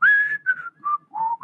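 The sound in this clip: A person whistles a television show theme tune: five clear, pure notes in a short phrase, stepping downward in pitch before lifting again on the last note, with no other sound.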